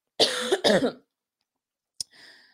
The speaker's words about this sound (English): sorry for the coughing